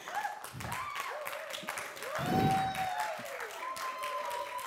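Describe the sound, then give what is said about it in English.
Congregation applauding in church, a steady wash of clapping that carries on throughout with a voice and sustained tones rising over it. “And I want us to put our hands together for our very own Father in the house.”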